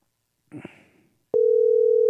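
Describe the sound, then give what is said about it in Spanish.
A telephone line tone sounds on a call that goes unanswered. A short, muffled noise comes first, then a brief gap, and then the tone sets in abruptly and holds loud and unbroken to the end. “No, no quiere. Vladimir Hurtado no quiere contestar el gerente de fiscalización, ¿eh?”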